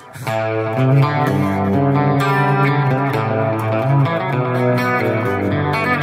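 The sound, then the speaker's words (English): Clean-toned electric guitar plays sustained, ringing chords with a few melodic moves over a steady bass line, loud and continuous throughout with no talking. “And if I'm playing clean, it's this. Oh, yeah. What you want is a clean sound.”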